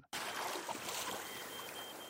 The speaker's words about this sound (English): We are at Cape Town Harbour.